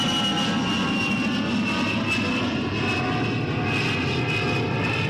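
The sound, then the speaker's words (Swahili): Loud, continuous roar of an airplane taking off, a broad engine rumble with a thin high whine layered on top, holding a constant level throughout with no voices. “Anatazama ndege zikiondoka ardhini”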